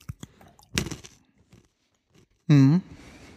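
Crunchy chewing of a mix of peanuts and peas, with several crisp crunches early on, then a pause and a short voiced sound.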